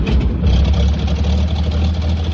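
A newly built locomotive's engine runs in a steady, deep idling rumble, with a constant low hum and a rough mechanical texture above it that hold even throughout, without voices.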